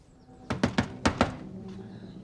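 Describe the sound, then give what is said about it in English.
A man raps his knuckles on a door, five sharp wooden knocks in two quick groups, three and then two, each a crisp thud with a short decay into quiet. “The long-haired man knocks on Celia's door.”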